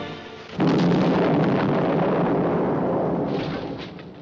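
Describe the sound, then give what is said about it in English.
A bomb device, a diamond pulsator on a table in a control room, explodes with a sudden loud blast that turns into a dense, sustained roaring rumble and slowly fades. “We have another diamond pulsator on the table in the control room. It's going to explode.”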